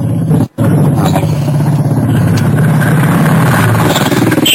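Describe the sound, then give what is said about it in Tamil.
Road vehicles pass by, a loud, steady engine roar that drones on continuously, broken only by a brief cut near the start. “வாகனங்கள் செல்கின்றது. போற வாகனம் போறேன்.”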